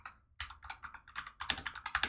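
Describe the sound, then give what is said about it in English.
Rapid typing on a computer keyboard: after a brief pause, a quick run of crisp key clicks that gets somewhat louder and denser toward the end. “Come on. You can type. I know you can.”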